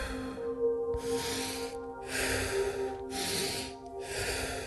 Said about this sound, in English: So you inhale through the nose and then exhale through the mouth in short but powerful burst.